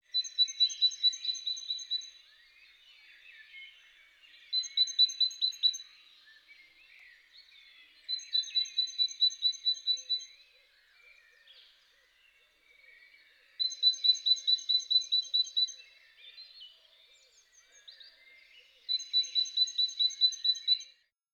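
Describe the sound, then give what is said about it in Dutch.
A great tit sings the faster variant of its song: five bursts of rapid, high, evenly repeated notes, separated by short pauses with faint background chirping. “De koolmezen die we in tuin, park en bos horen zingen, zijn vooral standvogels van bij ons.”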